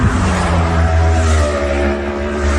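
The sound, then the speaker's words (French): Motorcycles speeding in groups along a 50 km/h valley road at Vaufrège, La Gineste, their engines a loud, continuous roar with steady low harmonics that dips briefly near the end before surging again. “ils passent par groupe de 7, 8, 10 motos et je pense qu'ils ne peuvent pas aller plus vite que ce qu'ils font. Ils sont vraiment à fond et c'est des allers-retours, donc c'est vraiment infernal.”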